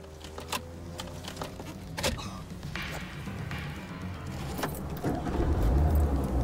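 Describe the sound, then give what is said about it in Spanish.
Keys jangle and clatter as someone gets into a car in a parking lot, with scattered clicks and knocks, then a low engine rumble builds and grows louder toward the end as the vehicle starts. “ir al vehículo, entrar en él y encenderlo.”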